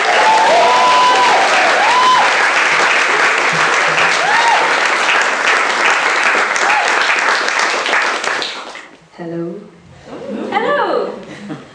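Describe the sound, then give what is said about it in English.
An audience welcomes a storyteller to the stage with loud, dense applause and a little laughter. The clapping holds steady for several seconds, then falls away as a voice begins speaking. “could you please put your hands together and a big warm welcome to the stage to Rosie”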